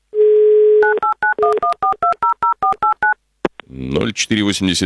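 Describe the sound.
Touch-tone dialing of a phone number with a 911 prefix: a steady dial tone, then a quick, evenly spaced run of about a dozen short electronic beeps, a brief click and pause, and then a voice on the line.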